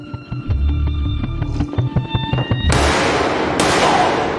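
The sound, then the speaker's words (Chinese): Gunshots in a scene from a British gangster TV drama: two loud, sharp cracks about a second apart, each leaving a long noisy tail, cutting in after a stretch of rhythmic background music. “女主冲了出来，直接开枪打死了小弟”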